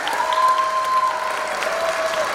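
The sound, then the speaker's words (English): An audience applauding volunteers as they come out on stage, a steady round of clapping that holds at an even level, with a sustained high tone running through it. “A big round of applause to all of our volunteers.”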